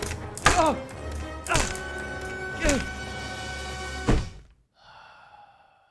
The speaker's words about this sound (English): Next, he proceeded to set down the axe.